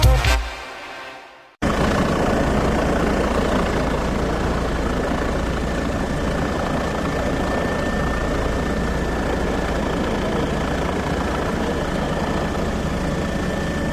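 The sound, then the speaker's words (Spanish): A helicopter drones steadily and loudly after a brief fading sound at the start, a continuous low rotor and engine rumble with a faint sustained tone running through it. “Este sonido de helicóptero que escuchan, pues podría ser el sonido de un rescate en alta montaña, podría ser el sonido de una operación antidroga o un operativo de vigilancia.”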